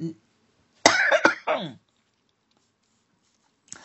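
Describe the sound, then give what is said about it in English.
A few short, harsh coughs burst out in quick succession, loud and alone, followed by quiet. “so I'll stop coughing”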